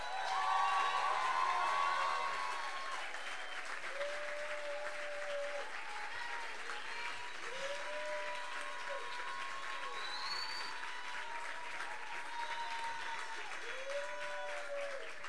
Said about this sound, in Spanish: no solamente me aplauden las canciones, yo sé que también están aplaudiendo a otras y a toda una época, y yo estoy recomprometida con ese aplauso que ustedes me dan.